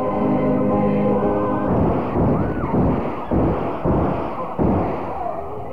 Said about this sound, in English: The shooting and the aftermath, broadcast live on a local radio station.